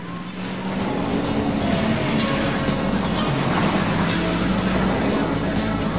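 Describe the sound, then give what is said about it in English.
Police cars peel off the road, cut across the ground between carriageways and tear away in a loud, continuous engine roar. The roar swells up after a softer first second and then stays heavy and sustained. “The cop cars peel off the road, cross the middle ground between the carriageways, then tear off in the women's direction.”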